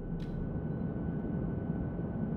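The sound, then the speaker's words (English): An aircraft in flight drones steadily as it nears landing. The low, constant roar of engine and airflow holds without change, apart from a brief hiss near the start. “We'll be landing soon. There should be a flat area close to our destination that I can park it.”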